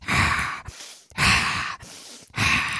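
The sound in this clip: A voice imitates loud, forceful yoga breathing: three strong, hissing breaths with a rough low rasp. The breaths come in an even rhythm, each lasting about half a second and separated by short pauses.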